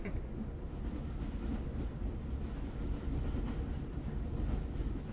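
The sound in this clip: A passenger train bounds across flat plains, heard from a coach seat as a steady, dense low rumble with faint rattling and rail noise, unbroken and even in level throughout.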